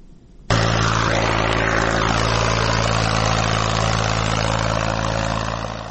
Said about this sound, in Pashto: لمړی غږ هم د ماشینونو غږ ده.